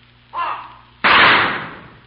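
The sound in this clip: A gunfire volley on the order to fire: a shorter, softer burst comes first, then a sharp, loud blast cuts in abruptly and trails off.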